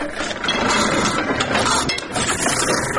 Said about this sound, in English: The company uses a 360-kilogram Platon letterpress machine to make its creative designs.